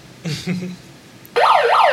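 An electronic siren from a megaphone bursts in partway through, a loud, rapid wailing sweep that rises and falls over and over, after a few brief, faint vocal-like sounds.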